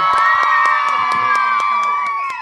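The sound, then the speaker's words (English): Cheering and applause from an audience greeting Selena Gomez: loud, sustained shrieks and whoops with quick clapping mixed in, holding steady before easing slightly at the end. “So everybody give it up for Selena Gomez.”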